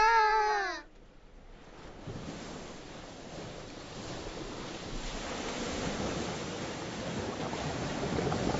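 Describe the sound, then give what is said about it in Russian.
Water bubbling as a soft, hissing, churning wash that swells slowly louder over several seconds. A brief, high, wavering tone comes just before it. “Как будто что-то булькает.”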